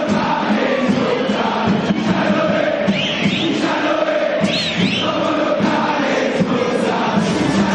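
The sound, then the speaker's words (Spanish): River Plate fans cheering in a stadium: a constant, loud crowd roar with a heavy low rumble, with a couple of shrill whistles rising out of the din midway through. “Impresionante el público de River, dejando sello acá en la tarde de...”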